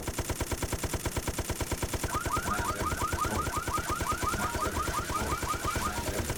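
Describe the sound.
Machine gun fire in a video game runs as a fast, even stream of rapid shots through the whole clip, with a warbling electronic tone laid over the middle stretch.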